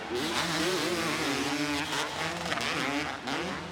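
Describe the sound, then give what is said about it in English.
Two-stroke motocross bikes rev at full throttle during a race, giving a continuous, loud, buzzing wail. The engine pitch wavers up and down as the riders work the throttle, with no talk over it. “Awesome to hear these two strokes wound out here.”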